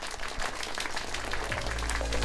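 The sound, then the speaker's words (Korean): An audience applauds after a performance, a dense and even wash of many hands clapping that holds steady throughout at a fairly low level. “우리 다시 한번 큰 박수 부탁드립니다.”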